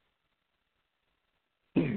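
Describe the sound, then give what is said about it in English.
A single short throat clearing comes abruptly and fairly loud after near silence. It is cut off at the very end. “Excuse me, I got something in my throat.”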